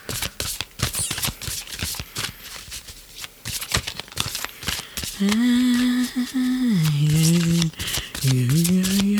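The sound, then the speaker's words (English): Rapid papery shuffling and riffling of a deck of cards as one card is drawn, a busy stream of crisp flicks that gives way to a sustained, wavering voice. “And we're going to pull one more card.”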